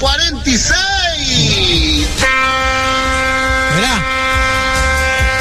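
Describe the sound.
A 1946 locomotive train horn gives a loud, sustained, chord-like blast that starts after about two seconds of excited talk and holds steady to the end, with voices continuing over it.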